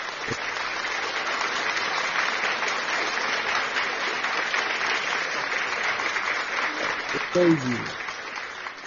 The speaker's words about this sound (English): let's clap for all the mothers on this platform